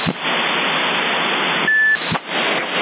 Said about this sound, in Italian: portante muta, sente solo il bip